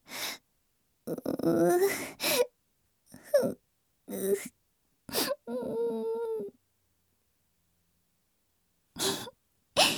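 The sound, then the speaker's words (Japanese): A voice fakes crying in a series of short sobbing, gasping bursts and one drawn-out, wavering wail, separated by silent pauses. “そんなに謝らないでください。嘘泣きです。”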